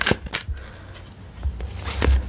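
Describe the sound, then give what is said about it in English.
An Herbal Astrology Oracle card deck is shuffled and a card pulled, giving a few papery riffles and soft taps in an uneven rhythm, fairly quiet, with no talking. “I am using the Herbal Astrology Oracle by Adriana Isles, the same deck I used last week, if you listened. Let's pull a card.”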